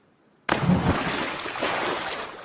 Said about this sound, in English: They placed an underwater mic and an overhead mic outside the swimming pool. So here's what the underwater mic sounds like. Adding the overhead mic, it sounded a bit like this.